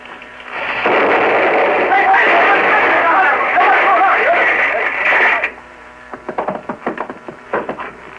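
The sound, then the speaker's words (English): An explosion from a muzzle-loaded gun fired out a window, catching a corner of the window frame. A loud, sustained roar lasts several seconds, then drops to a scatter of sharp clattering hits like falling debris. “I'm sorry. I meant it to explode entirely outside the building. Must have caught a corner of the window.”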